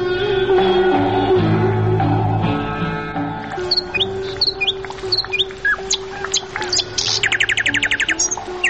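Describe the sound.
Birds chirp and sing in quick, high tweets and trills. They grow busier in the second half over a sustained, steady tonal background. No talk is heard.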